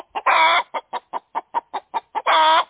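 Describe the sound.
A hen clucks in a quick run of short, clipped clucks, bracketed by two longer, drawn-out squawking calls, loud and clear with no voices.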